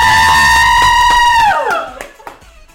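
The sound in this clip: Live studio audience clapping over a sustained, steady tone whose pitch slides sharply downward partway through, after which only a few scattered claps remain.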